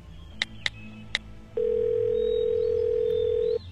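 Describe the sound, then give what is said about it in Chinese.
A mobile phone dials a call: three short, sharp high beeps come first, then one long steady tone that holds for about two seconds, over a faint low hum. “龚应贤说着便掏出手机拨通了一个电话。”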